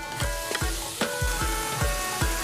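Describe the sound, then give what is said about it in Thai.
Sizzling fills a wok as minced pork, fried shallots, garlic and shrimp paste are stir-fried with salt, palm sugar and bird's eye chilies until dry. Repeated sharp scraping strokes cut through a steady hiss. “มาเจียวหอมกระเทียมใส่หมูสับกะปิเกลือน้ำตาลปี๊บและตามด้วยส้มโฮกเพิ่มความเผ็ดจากพริกขี้หนูสวนที่ปลูกเองในบ้านผัดในกระทะจนกว่าจะแห้งร่วน”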